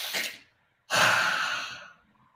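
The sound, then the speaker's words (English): A person breathes in hard through an open mouth during a breathing exercise for stress. A short breath comes first, then a pause of silence, then a long, loud, airy inhale that lasts about a second before fading. “Here's what you do. Open your mouth. Now breathe in hard.”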